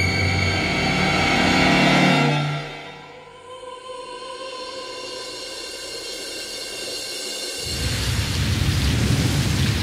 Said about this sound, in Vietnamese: Buổi chiều hôm ấy, trời mưa phùn rả rích mãi, kéo dài đến tối vẫn chưa ngưng.